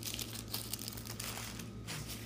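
A bag of chips crinkles and rustles as it is handled, a faint, continuous crackle with small uneven bursts and no talking.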